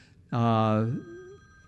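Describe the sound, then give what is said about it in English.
A mobile phone ringtone sounds once with a loud, buzzy electronic tone lasting about half a second. A fainter, thinner tone follows briefly and then cuts off. “Was that my phone? Oh, this is embarrassing.”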